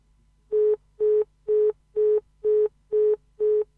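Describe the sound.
Telephone busy tone after a caller has hung up: seven short, evenly spaced beeps at one steady mid pitch, clear and alone.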